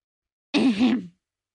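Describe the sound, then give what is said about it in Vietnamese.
An older man clears his throat with one short, voiced 'ahem', swelling twice in loudness before trailing off, heard alone with no other sound. “Tiếng hắng giọng của ông Lâm làm óc Lâm Hạo bừng tỉnh”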